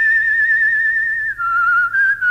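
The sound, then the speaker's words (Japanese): Whistled theme melody for a villain's entrance, in Western-film style: one clear, steady high tone held for over a second, then a slide down to a lower note broken by two brief breaths, loud and alone. “これがね、この口笛がね、ハカイダーの登場の時の。”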